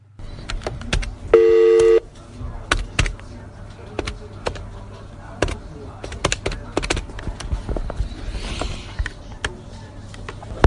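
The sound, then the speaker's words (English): A single held telephone keypad tone sounds as a phone call is placed, followed by scattered clicks and faint handling noises over a low hum. “So we phoned her up again.”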